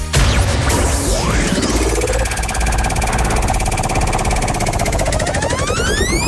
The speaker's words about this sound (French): Allez, je te laisse dire top pour lancer la roue.